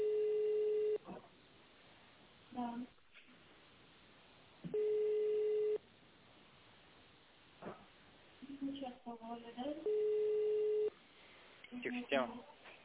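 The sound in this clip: Telephone ringback on an outgoing call: three steady, low buzzing tones, each about a second long and spaced a few seconds apart, with a voice talking in the gaps.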